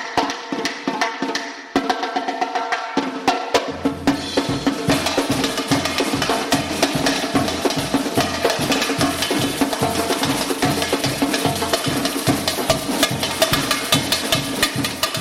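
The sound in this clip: Brazilian samba percussion group rehearsing for Carnival in Boston: loud, dense drumming with a driving, steady beat, starting with lighter hits before deep bass drum pulses join and carry the groove to the end.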